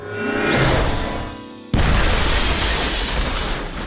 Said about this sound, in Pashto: خو دا چې فادي د کیمیاوي موادو په ترکیب نه پوهېدو لابراتوار ته یې چاودنه ورکړه